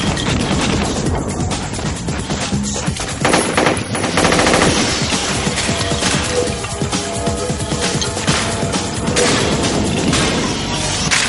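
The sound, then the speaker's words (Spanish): Dense automatic gunfire from a shootout in a 1999 science-fiction film, a hail of bullets with rubble breaking off stone columns. The rapid bursts are loud and continuous, with no pauses and no voices. “Neo avanza entre las columnas bajo una lluvia de balas y cascotes.”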